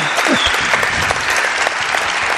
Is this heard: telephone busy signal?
no